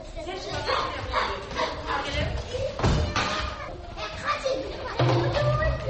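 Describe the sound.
Children playing in a kindergarten, a busy mix of young voices, shouts and chatter with an occasional thud, steady and fairly loud throughout.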